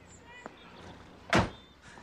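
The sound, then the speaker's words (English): A car door opening as someone gets out of the car: one dull, fairly loud thunk over a low steady background rumble, with a faint click earlier. “reaches for the door handle and exits the car.”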